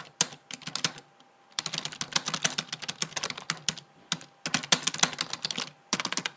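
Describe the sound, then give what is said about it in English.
Keys clatter as text is typed on a computer keyboard: dense bursts of rapid, crisp keystrokes broken by short pauses, with no voices over them. “Let me type in some text.”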